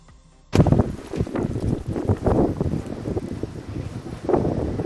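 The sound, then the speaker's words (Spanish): Strong gusty wind during the first autumn storm in A Coruña roars in after a brief quiet start and buffets the microphone. It stays continuous with several surging gusts. “Desde mediodía ha comenzado a arreciar el viento y las lluvias podrían llegar, según las últimas predicciones, a última hora de la tarde.”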